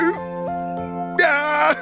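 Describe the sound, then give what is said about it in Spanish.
An ogre cries in a drawn-out, wavering wail with sliding pitch, a few sobbing swells that break into a louder, strained howl near the end. “No llores así. Es patético viniendo de un gran ogro como tú.”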